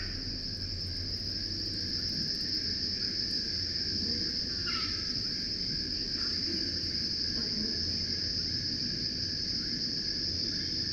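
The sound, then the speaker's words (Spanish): Locusts chirping like crickets: a continuous, shrill, high-pitched buzzing drone that holds unbroken and fairly faint over a low background hiss. “Son langostas.”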